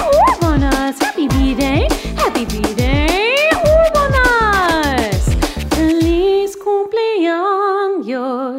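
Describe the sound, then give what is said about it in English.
A dog yips and howls: a quick run of loud, short yelps sweeping up and down in pitch, then a few longer sustained howling tones near the end. “My dog says, ah-woo!”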